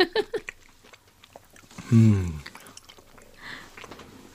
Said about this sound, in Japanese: ちょっと食べるまで待ってくださいね。